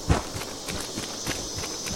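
Footsteps from a post-apocalyptic wasteland video game sound as a character walks through a green, rainy area, a few soft, dull steps at an even pace.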